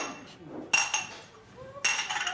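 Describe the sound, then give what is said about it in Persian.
Tea is poured into a glass, marked by two bright glassy clinks about a second apart, with a voice speaking softly near the start. “واسه کی میریزی؟ بابا. بابات که چای لیوانی نمیخوره.”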